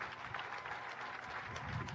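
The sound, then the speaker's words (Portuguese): Steady applause from an audience honoring fighters during a public address in Mozambique, a faint, continuous wash of dense clapping without clear breaks. “E quero pedir uma grande salva de palmas para os nossos combatentes.”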